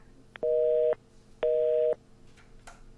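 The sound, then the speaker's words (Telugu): A busy tone after a dropped phone call: two long, steady, mid-pitched beeps, each lasting about half a second, separated by an equal silent gap, then quiet. “మళ్ళీ call cut అయిపోయింది, signal problem ఉన్నట్టుంది.”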